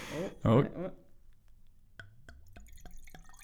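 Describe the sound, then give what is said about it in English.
Wine glugs steadily from a lidded bottle after a voice speaks briefly: a run of hollow, bubbly gulps with a faint clinky ring behind them. “Less of a glug. It was a steady glug. I was all right with that. Clinky noise behind it.”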